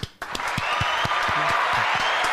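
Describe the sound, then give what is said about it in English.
An audience breaking into a round of applause for a show guest: after a brief sharp onset, clapping settles into a dense, steady roar that holds at an even level to the end. “Rounds of applause.”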